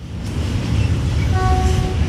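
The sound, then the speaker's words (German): Rumbling, rattling train noise at a busy rail station where locomotives are shunted and coupled to wagons, joined partway through by a steady, sustained horn blast over the continuous din. “Es rattert und hupt immer irgendwo auf einem der zig Gleise am Bahnhof Elztal. Loks werden umgesetzt, neu an Waggons gekoppelt.”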